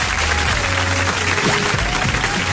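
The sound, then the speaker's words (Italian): Audience applause in a live TV studio, a dense, steady patter of many hands clapping throughout, with a faint low tone underneath. “E facciamo l'applauso allora adesso. Si fa così.”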